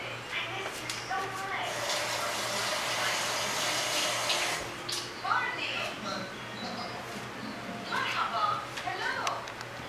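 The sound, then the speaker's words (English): Hands are washed under a running tap. A steady, splashing water flow runs the whole time, with changing bursts as the hands move through the stream, and a voice comes through faintly at moments. “Okay, so let me wash my hands so I can turn off the camera.”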